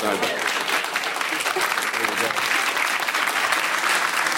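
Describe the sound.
Audience applause fills the whole stretch as a dense, steady wash of clapping, with voices mixed in.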